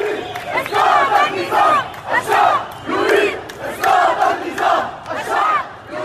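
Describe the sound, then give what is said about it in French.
Protesters in Beirut chant the Arab Spring slogan calling for the fall of the regime, a large crowd voicing a loud, rhythmic chant in repeated surging phrases that rise and fall steadily throughout. “Le peuple réclame la chute du régime, on reconnaît là le chant emblématique du printemps arabe de 2011.”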